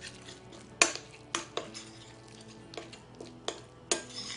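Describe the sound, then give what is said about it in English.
Tart filling is mixed in a bowl: a utensil gives several sharp clinks and scrapes against the bowl, spaced irregularly and fairly faint, with quiet stirring between them. “I'm going to mix all, and a pinch of salt. Mix all of that together, and this is our filling for our tarts.”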